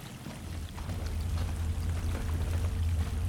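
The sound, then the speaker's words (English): A crimson stream flows between mounds of red dirt with a steady, faint trickling and burbling rush that holds continuously without pauses. “Walking between mounds of red dirt, they step over a crimson stream and travel alongside it.”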